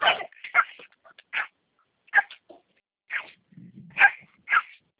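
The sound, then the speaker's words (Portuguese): Dogs bark in the street in a series of short, high yips and barks separated by brief gaps, heard alone without talk. “Tem muito cachorro na rua, aí você passa com Chega, chega.”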